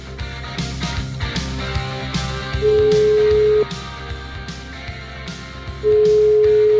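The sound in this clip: Telephone ringback tone on an outgoing call to a home in Montichiari, in the province of Brescia: two long, steady, mid-pitched tones separated by a pause, loud over quieter background sound with harmonic tones.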